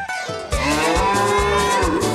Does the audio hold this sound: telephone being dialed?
no